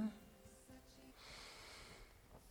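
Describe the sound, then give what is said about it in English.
A deep inhale taken during a guided breathing exercise: one long, soft, airy draw of breath that swells slowly and holds steady before easing off, fairly faint. “now deeply inhale.”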